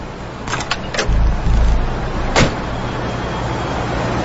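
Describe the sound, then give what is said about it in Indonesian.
A car door is closed after someone gets out: a few light clicks and a low rumble, then one sharp thunk, all over steady vehicle background noise. “turun dan menutup pintu mobil”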